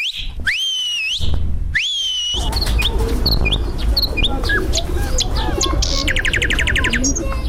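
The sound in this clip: A person whistles to call an animal at the Kabul zoo: two loud swooping whistles, each rising then falling. A dense chorus of chirping birds and clucking poultry follows and continues to the end.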